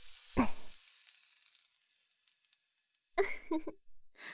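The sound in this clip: Sizzling of a hot branding iron pressed onto skin: a sharp onset, then a long, faint, hissing sizzle that slowly fades before a few louder bursts follow near the end.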